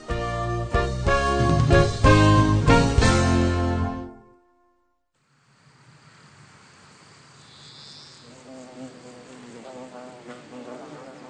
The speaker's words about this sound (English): It is a warm, sunny day. The honeybees are hard at work. These small black and yellow insects fly from flower